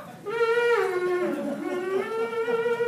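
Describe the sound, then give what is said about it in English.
A voice imitates a theremin with a sustained, wavering otherworldly 'ooo' tone that dips in pitch midway and then climbs back up, heard alone. “So just so you know, this is what a theremin sounds like. It's kind of otherworldly ooing.”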